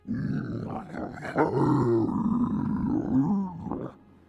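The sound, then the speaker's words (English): A giant creature groans and grunts as it is freed from ropes and its roots loosen from the earth. The deep, rough roar swells and carries on for about four seconds, then fades quickly at the end. “starts to then groan and grunt as you start to see some of the earth that the roots are sort of buried into start to move and loosen”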